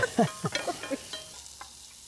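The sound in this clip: Food is stirred and scraped as it roasts in a pan. A few quick stirring strokes come close together at first, then sparser faint scrapes follow over a soft sizzle.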